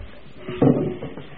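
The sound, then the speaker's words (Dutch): A small briefcase is opened with one dull clack, followed by a couple of softer clicks and a faint rustle. “Het koffertje gaat even open.”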